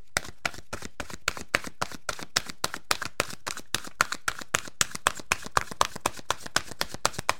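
Oracle cards are shuffled by hand, making many crisp, rapid snaps in a steady, even rhythm throughout, with no talking.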